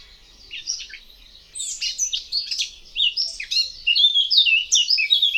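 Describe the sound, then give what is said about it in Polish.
A Eurasian blackcap sings a high, varied warbling song with quick chirps and whistled notes. It begins with a few faint, scratchy notes, then breaks into louder, clearer fluting phrases that grow fuller and more continuous toward the end. “Piosenka pokrzewki czarnoubistej składa się z dwóch części. Rozpoczyna się od serii cichych, zgrzytliwych dźwięków, które przechodzą w piękną, czystą, fletową melodię.”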